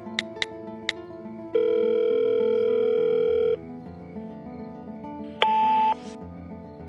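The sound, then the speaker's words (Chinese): A mobile phone call being returned: a few faint short clicks, then a long, steady ringback tone, a pause, and a second, shorter tone at a higher pitch. The tones are clear and moderately loud, and no one speaks. “他赶紧回拨了过去。”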